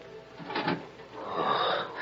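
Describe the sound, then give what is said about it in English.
A room door creaking slowly open, a drawn-out groaning creak in two swells, the second longer and louder than the first. “And the door of the room creaked slowly.”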